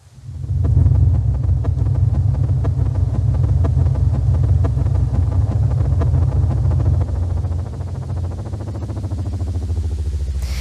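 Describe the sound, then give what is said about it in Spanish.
Sonified star oscillation frequencies, sped up into audible sound: a loud, steady, low rumbling drone with a fine, rapid pulsing texture that drops slightly in level after about seven seconds and continues. “El sonido me lo ha pasado los científicos que le han puesto una frecuencia que yo he utilizado y suena así.”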